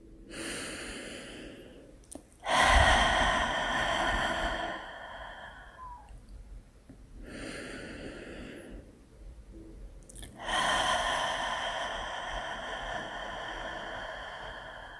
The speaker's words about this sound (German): Und dann schließe deine Augen und nimm ein paar tiefe Atemzüge durch die Nase ein und durch den geöffneten Mund wieder aus.